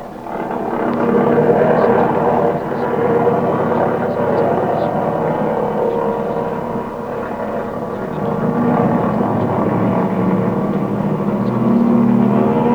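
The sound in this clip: Airplane engine droning loudly as the plane takes off: a steady, rough, throbbing roar that swells slightly at times and holds throughout.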